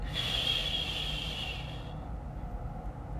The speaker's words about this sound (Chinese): 闭气闭到自己觉得不行的时候。再把气从嘴巴缓慢的吐出来，